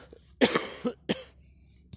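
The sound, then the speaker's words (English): A person coughs in a short cluster of three harsh coughs, the first the loudest, followed by a faint fourth sound at the end, with no talking over them. “A little bit of cough there”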